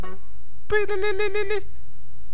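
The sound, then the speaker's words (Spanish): A mobile phone ringtone: a quick burst of electronic beeping tones alternating in pitch, lasting about a second before cutting off to quiet, with a brief voice just before it. “Pero cuando estoy lejos, estoy haciendo alguna actividad, lo pongo a que suene para notar que llaman. Y suena así.”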